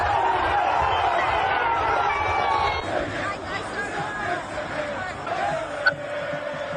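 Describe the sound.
Stadium crowd at an Arsenal football match: a loud, dense roar of fans for the first few seconds, then easing into a lower murmur of crowd noise.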